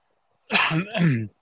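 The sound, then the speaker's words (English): A single short cough from a person: one harsh burst with a rough, voiced tail, lasting under a second and heard on its own. “sorry, I keep coughing.”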